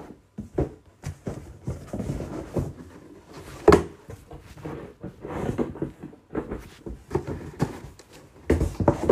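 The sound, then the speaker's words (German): A shoebox is pushed into another cardboard box, giving many irregular cardboard knocks, scrapes and thumps, some sharp and louder, with quiet gaps between them. “Ah, da ist jetzt so eine Schuhschachtel, das ist da drin. Ich pack's einfach in die andere Schachtel rein.”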